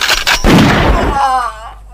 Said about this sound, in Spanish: Me lo mataste, che. Ahí está, otro tiro por si vive de nuevo.